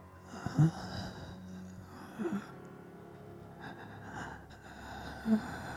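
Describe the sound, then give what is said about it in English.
Labored breathing coming from behind, heard as a few sharp, gasping breaths scattered across quiet, low-level breathy noise. “belabored breathing.”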